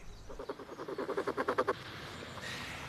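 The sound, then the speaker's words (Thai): A queen ant makes a rapid train of short, evenly spaced rasping pulses that grow slightly louder before stopping abruptly. A faint hiss follows, and the whole sound is quiet. “นี่คือเสียงที่ทำโดยมดราชินี”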